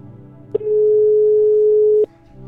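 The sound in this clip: Telephone ringing tone as a call is placed: one loud, steady mid-pitched beep lasting about a second and a half, framed by a click before it and another as it ends.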